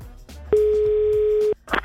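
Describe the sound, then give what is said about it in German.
A telephone dial tone, heard while calling home, sounds as one steady, loud, mid-pitched tone lasting about a second, with brief soft noises before and after. “sollen wir mal zu Hause anrufen?”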